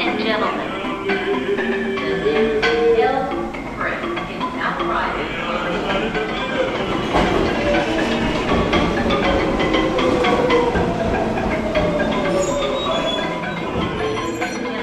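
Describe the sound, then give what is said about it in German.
A crowded New York subway train runs late in the evening, with a steady, loud rumble and high, drawn-out wheel squeal throughout. Indistinct voices murmur under the noise. “Die Uhr am Bahnsteig zeigt 10:30. Der Zug, in dem ich stehe, ist trotzdem voll.”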